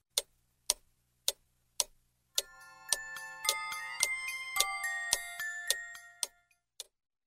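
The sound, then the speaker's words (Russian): A big clock ticks steadily a few times, then breaks into a bright, tinkling chime melody layered over its ticking. The music thins out and a single tick follows alone. “Мышка подошла к большим часам, и они заиграли чуть-чуть громче.”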